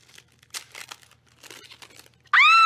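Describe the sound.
A wrestling trading card pack wrapper is torn open with faint, scattered crinkling and rustling in short bursts. A sudden loud, high voice exclaims at the very end.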